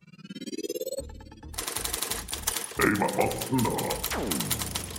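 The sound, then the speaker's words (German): A short poem jingle for a show begins with a rising, warbling tone sweep. A burst of rapid typewriter-like clacking follows, and the jingle ends with a falling, swooping tonal glide. “Ja, genau, mach mal den Gedichtjingle, genau.”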